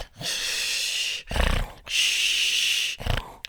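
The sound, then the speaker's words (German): A sleeping person breathes heavily and snores. Long, hissing breaths alternate with shorter, low, rumbling snorts in a slow, regular rhythm. “schnarcht ein bisschen oder besser gesagt, er atmet heftig”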